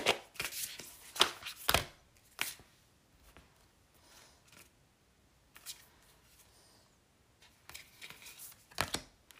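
Spirit Animal Oracle cards are shuffled and drawn in quiet, crisp riffles and taps, bunched near the start and the end with near-silent gaps between.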